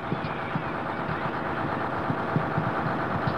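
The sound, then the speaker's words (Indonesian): A bus engine runs as a busload of children departs for the zoo. It makes a low, continuous rumble with faint rhythmic knocking pulses, moderately quiet and unchanging throughout. “Setelah semua anak masuk, bus pun berangkat menuju kebun binatang.”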